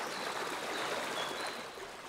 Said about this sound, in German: Der Quellbach stürzt über kleine Wasserfälle zu Tal.